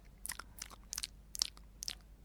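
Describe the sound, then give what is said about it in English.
A dog gnaws on a cardboard jigsaw piece, making faint, crisp crunching bites that repeat at a steady, unhurried rhythm. “looked over to see my dog, Polly, just happily chewing something. And a little piece of mashed-up blue card fell out.”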